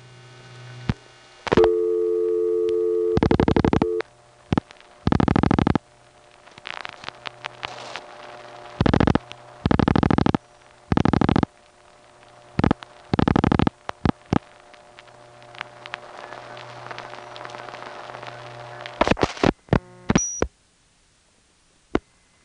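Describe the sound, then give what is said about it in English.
Telephone call-progress tones and switching clicks from calls to area code 819 in Quebec, routed from a panel office through a Montreal 4A and a crossbar 5 tandem to a step-by-step exchange. A steady tone gives way to many short, loud tone bursts and clicks over faint hum. “Here are a few calls, again, to area code 819 in Quebec, from my West 73rd panel through 10th Avenue, Montreal 4A, a crossbar 5 tandem to a step.”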